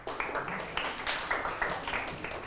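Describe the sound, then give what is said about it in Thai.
Schoolchildren clap their hands for a classmate during a rhyming-words lesson, a steady run of fairly quick, bright claps in loose rhythm, moderately loud with faint murmuring voices underneath. “ถูกต้องปรบมือให้เพื่อนครับ”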